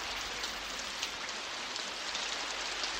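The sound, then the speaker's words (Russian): Rain falling, meant as the first slow drops of a shower during a walk in a pine forest. It is a steady, dense hiss of rain with a few faintly louder drops and no voices. “И в этот момент ударили первые неторопливые капли дождя.”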